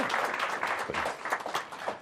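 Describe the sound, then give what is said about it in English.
Audience applause welcoming a returning guest: a dense, steady wash of many hands clapping that holds evenly for about two seconds, with no voices over it. “And let's give him a nice round of applause.”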